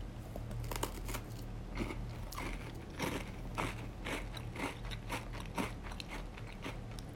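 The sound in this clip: Crunchy biting and chewing of a snack: many crisp, crackling bites and chews in quick, irregular succession over a steady low hum, with no talking.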